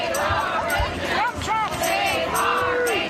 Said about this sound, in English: crowd gathered at Cabrillo National Monument to protest the Trump administration's mass firings of National Park Service employees